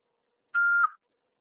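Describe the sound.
A voicemail recording beep: a single steady, mid-pitched electronic tone lasting about half a second, alone and surrounded by silence.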